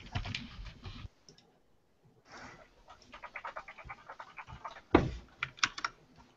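Typing on a computer keyboard: bursts of quick, crisp key clicks separated by short pauses, with one sharper, louder clack partway through.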